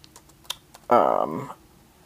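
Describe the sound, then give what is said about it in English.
Sparse, faint clicks of typing on a computer keyboard, a few separate keystrokes, followed by a brief voiced sound. “You can hear me type.”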